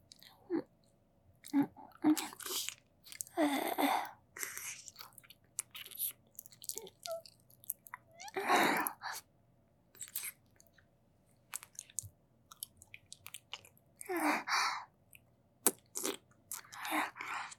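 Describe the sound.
Deep tongue-kissing mouth sounds: many wet smacks, squelches and slurps in irregular bursts separated by quiet pauses, fairly faint overall.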